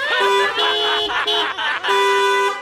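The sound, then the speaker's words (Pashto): Car horn honking on a blocked road behind an empty parked car: a few long, loud, steady blasts with short breaks between them. “ته دا هارن خو بند کا”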